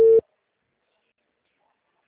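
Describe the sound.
A telephone busy signal heard while dialing a number: a single short, steady mid-pitched tone that cuts off abruptly into silence.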